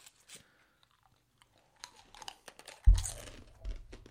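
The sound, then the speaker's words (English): A fortune cookie from a Chinese restaurant is cracked open. Faint rustles and small taps lead up to one loud, sharp crack near the end, followed by a softer crunch. “This is the sound of us opening our fortune cookie.”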